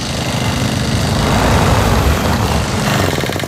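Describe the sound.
Grass being mowed by a motor mower in a small town's street and park, a loud, steady engine drone with a rough, buzzing texture that holds throughout without pause.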